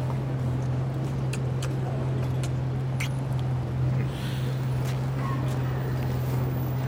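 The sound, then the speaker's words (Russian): A car engine drones low and steady as the car drives away, an unbroken hum with faint higher hiss above it and no clear change in loudness. “Машина уезжает”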